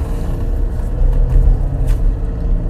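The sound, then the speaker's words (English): A loud truck engine, built to sound aggressive, drives alongside with a steady deep rumbling drone that swells slightly in the middle and stays continuous throughout. “I got a fucking douchebag driving right next to me. It's got to make his truck sound like a fucking dragon.”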